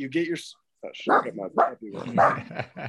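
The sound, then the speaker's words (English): A small wiener dog, a dachshund, lets out a few short barks mixed in with people talking. “that's my little wiener dog, Olive.”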